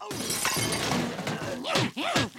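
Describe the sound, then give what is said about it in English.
A metal dustbin is smashed over a person's head in a fight, giving a dense, loud clattering crash that runs the whole length with several sharp bangs, while strained vocal cries break through near the end. “smashes a dustbin over his head and continues to beat him with the lid.”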